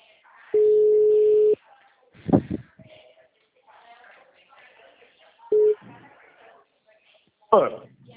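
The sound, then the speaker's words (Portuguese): A telephone ringing tone while redialing a call. One steady beep lasts about a second, and a second beep starts about four seconds later and is cut short. Faint background noise and a couple of clicks fall between them. “Ele ligou na minha cara, tô ligando de novo.”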